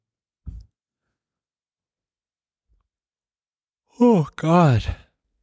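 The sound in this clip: A drawn-out voiced yawn near the end, heard as a breathy, groaning vocal sound in two connected stretches after a long near-silent gap. A small click comes early on.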